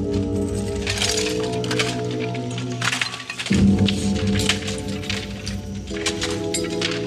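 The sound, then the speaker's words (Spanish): Metallic clinks, cracks and dull thuds come as machetes and spears are thrown down onto the ground. The impacts are irregular and scattered over a sustained musical backdrop. “Los hombres caminan tras él, arrojando sus machetes y sus lanzas al suelo.”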